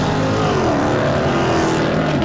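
Drag racing cars, a Chevrolet Camaro and a green Dodge, roar with a loud, continuous engine noise that holds steady throughout with a slight shift in pitch midway.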